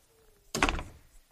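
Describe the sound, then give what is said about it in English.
A door is shut with a single dull, heavy thunk that fades quickly into a quiet background. “And we're going to shut the door. And when I shut that door, I'm not expecting him to go up, by the way.”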